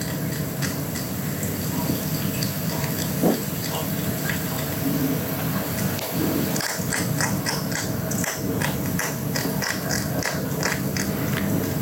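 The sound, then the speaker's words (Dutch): A hedgehog loudly crunches hedgehog food pellets, giving irregular crisp, clicky crunches over a steady hiss of outdoor background noise. “En dit keer een die met luid gekraak de egelbrokjes”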